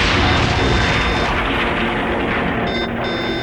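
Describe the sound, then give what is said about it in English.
A starship warp core explodes in a science-fiction audio drama, a loud, dense roaring rumble that holds steady throughout and eases slightly toward the end. “Tom, damage report! The Pioneer's warp core just exploded.”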